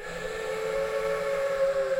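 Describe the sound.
A voice imitates a woman's strange, eerie whistle: a single sustained tone held steady for about two seconds, with faint overtones above it and a slight waver near the end.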